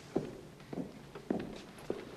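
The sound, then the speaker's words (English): Four faint, evenly spaced footsteps as a magician steps down from the stage into the audience during a theatre show, each a soft, distinct thud. “He steps down to the second row holding a small box.”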